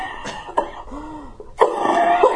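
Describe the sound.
A person coughs a few times, short rough bursts of coughing with throat clearing between quieter pauses.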